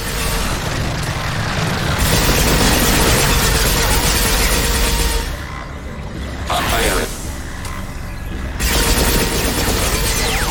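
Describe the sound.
Sustained video game gunfire with disruptor ammo, a loud, dense rattle of rapid shots that barely lets up, dipping briefly midway, with a voice speaking over the barrage.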